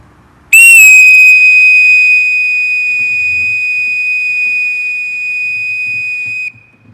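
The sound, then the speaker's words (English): Low-pitch note on a bosun's call, blown with the pipe held in a clenched hand: a loud, pure, steady whistle that starts sharply, holds one unwavering tone for about six seconds, then cuts off. “The first sound, starting by holding the bosun's call in the proper manner, is the low pitch.”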